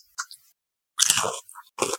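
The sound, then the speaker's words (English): Crunchy biting and chewing of a pepper during a spice-eating challenge. Two small bites come first, then a few louder, dense bursts of crunching close to the mouth, with no talking. “It just tastes like a normal pepper. Just eat it.”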